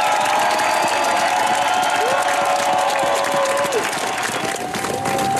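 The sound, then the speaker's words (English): A crowd cheers and applauds as Norway's new King Haakon VIII, Queen Mette-Marit and the royal family step onto the palace balcony in Oslo after the old king's funeral. The roar is loud and steady throughout. “This is the kind of welcome the new King Haakon VIII, Queen Mette Marit and the rest of the royal family get as they've just stepped out onto the palace balcony here in Oslo at the end of the old king's funeral.”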